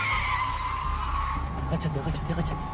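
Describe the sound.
Tires squeal as a police patrol car swerves through a sharp turn while chasing another car in a thriller film. A sustained high squeal runs through the first half, then continues more faintly beneath a speaking voice.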